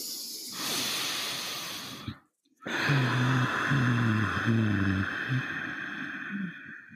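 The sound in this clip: Ujjayi breathing through the nose with the lips sealed: a long, throaty, hissing inhale, a brief silent pause, then another sustained, constricted, rasping breath that runs steadily to the end.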